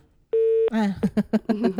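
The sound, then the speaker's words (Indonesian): A phone line tone after a dropped call: one steady, flat beep that holds briefly, then voices that follow right after it. “Hilang nih sinyalnya nih.”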